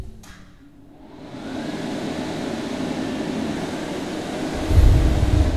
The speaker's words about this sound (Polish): Włączyć suszarkę.